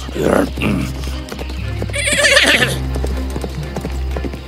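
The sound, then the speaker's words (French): Horse snorting and neighing while galloping through a forest, with a steady patter of hoof clip-clops, a loud breathy whinny burst in the middle, and more hoofbeats continuing over a low rumble. “Le souffle fort de mon cheval réveilla le géant.”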